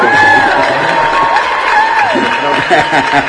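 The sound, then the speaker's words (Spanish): A crowd at a biker community gathering cheers, whoops and applauds in a loud, continuous wash of noise, with voices shouting over it throughout. “Yo digo que se merecen las fanfarrias. Un aplauso, por lo menos.”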